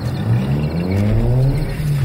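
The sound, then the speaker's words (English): A push-start car's engine revs hard as it pulls away out of a driveway. The rumble is loud and steady, with harmonic tones climbing through the brief burst. “the car is luckily a push start, and I'm screeching out of my driveway even as the creature claws the exterior.”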